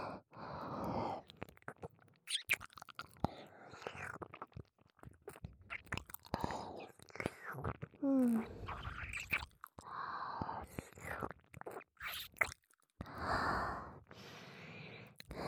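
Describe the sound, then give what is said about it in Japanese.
Wet licking and mouth sounds on an ear during a whispered role-play, with many soft, irregular smacking and slurping bursts, faint breaths and occasional whispering between them. “このお耳をレロレロって舐め回して、汗を拭き取ってあげるからね。”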